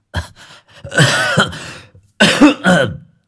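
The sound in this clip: An old man in a violent coughing fit, with rough, strained coughs and throat-clearing bursts in two clusters separated by a brief pause, loud and raspy.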